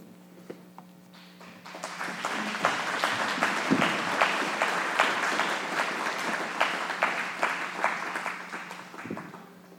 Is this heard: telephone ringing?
no